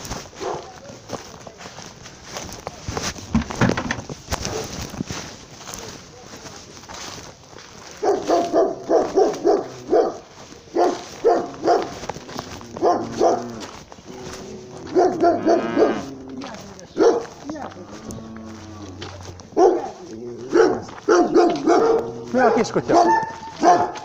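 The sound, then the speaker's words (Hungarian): A small dog barks in many quick, sharp yaps, arriving in bursts that grow more frequent after a quieter opening stretch. “Kis kutya. Nem verek rá.”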